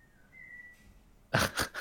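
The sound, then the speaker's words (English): Faint whistling in the background: a thin, steady tone that holds for under a second, followed by a few short, louder breathy bursts. “there's also whistling in the background. That would be on my part.”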